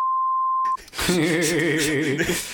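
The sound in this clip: A censor beep blanks out a phone number: a single steady, high-pitched sine tone held for under a second, then cut off as a voice resumes talking.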